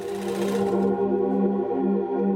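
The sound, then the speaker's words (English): A sewing machine runs while a dress is altered, giving a steady whirring motor hum that continues without a break. No voices are heard. “uses a sewing machine to alter her grandmother's dress”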